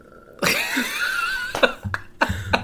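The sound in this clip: A person coughs and clears their throat: one long, rough cough, then a few shorter, sharper coughing bursts near the end, fairly loud.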